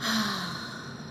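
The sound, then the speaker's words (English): A cleansing breath exhaled with an open "ha" sound: one voiced, breathy sigh that starts strong and tapers off over about a second, heard alone without talk. “So a cleansing breath is when you're gonna inhale in, and then you're gonna exhale, making a ha sound like this.”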